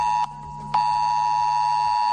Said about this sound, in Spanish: Pitido